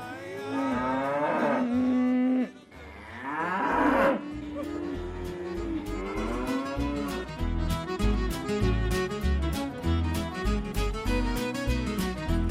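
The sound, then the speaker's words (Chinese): Calves lowing as a cowboy drives them along, with several loud, drawn-out moos that waver in pitch, heard without talk over them. “所以牛仔仲是一边唱着歌一边赶着这些小牛。”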